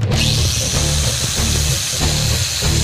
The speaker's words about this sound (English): I wonder if we should grind a little bit, just a little bit off the head here.